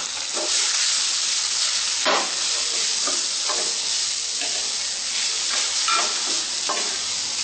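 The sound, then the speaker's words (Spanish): Food sizzling in a pan with sesame oil as it is stirred until golden for a vegetarian dish: a steady, bright frying hiss broken by several soft scraping stir strokes. “Mezclamos bien para que quede bien dorado.”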